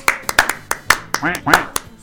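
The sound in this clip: Scattered hand claps greet the radio station's operator: a few sharp, irregular claps while people talk over them.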